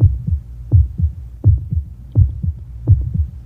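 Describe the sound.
A human heartbeat: a steady run of deep, muffled lub-dub double thumps at an even pace, with a low throbbing hum between beats and no voices.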